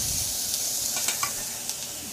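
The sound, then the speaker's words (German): Soaked porcini mushroom pieces sizzle in hot olive oil, a steady bright hiss of frying dotted with a few sharp crackles and pops, with no voices. “Jetzt gebe ich die eingeweichten Steinpilzstücke dazu.”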